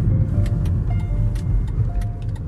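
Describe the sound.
A car drives up a ramp leading onto a long bridge during an early-day drive, making a steady, loud, low road and engine rumble with faint light ticks above it and no speech.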